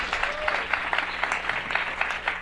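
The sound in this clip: Audience applause greets a comedy show guest: a steady wash of clapping from many hands, dense and even, with individual claps popping out rhythmically throughout.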